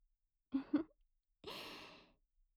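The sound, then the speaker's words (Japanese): A deep breath drawn alone and quiet: two short catching intakes in quick succession, a pause, then one longer, airy breath lasting under a second. “ほら、深呼吸。”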